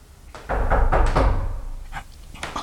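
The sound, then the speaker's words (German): The rear door of a delivery vehicle being opened: a solid clunk, then a sustained rattling rumble that tapers off, followed by a couple of lighter clicks. “Ja, der Fahrer, der steigt aus. Jetzt öffnet er die Hecktür.”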